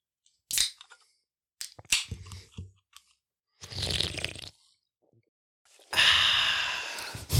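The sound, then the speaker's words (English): A can being popped open: several sharp clicks and cracks separated by quiet gaps, then bursts of hissing fizz, the last one loud and sustained. “Let's pop a top on this.”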